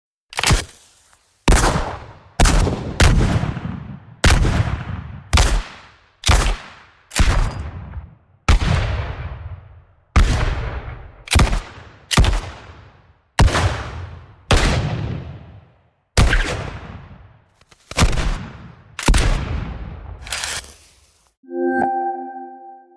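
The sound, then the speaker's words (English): Many sharp, booming gunshots from 19th-century Wild West black powder revolvers, rifles and carbines fire one after another at a steady pace, each blast decaying into a short tail. A brief electronic tone pattern follows at the end. “Western Black Powder Guns by Barney Oram is a collection of 19th century firearm sounds from classic Wild West style weapons, including revolvers, rifles, and carbines.”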